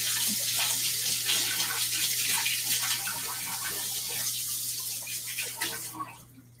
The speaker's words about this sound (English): So I'm just gonna like rinse my hands off really quick.